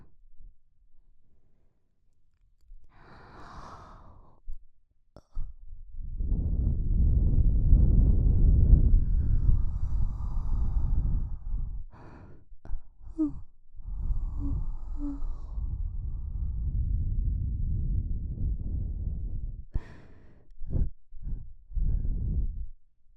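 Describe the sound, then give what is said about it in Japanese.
Breath is blown softly into an ear, producing a few long, airy, rushing exhalations with quiet pauses and faint short breaths between them, with no speech. “では、耳に息を吹きかけていくぞ。”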